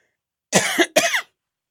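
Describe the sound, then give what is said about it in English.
Two sharp coughs come in quick succession, loud and alone against silence. “And a cough, right?”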